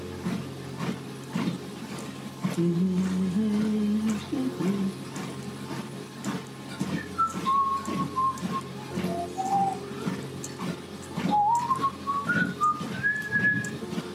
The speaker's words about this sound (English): What's that I'm whistling? It's a sig tune for some show on Irish radio that possibly isn't on anymore.